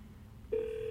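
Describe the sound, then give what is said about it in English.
A telephone call being placed: a faint low hum gives way midway to a single steady electronic call tone that holds at an even level to the end. “I don't have it queued up, so excuse me. I'm going to give him a quick call here.”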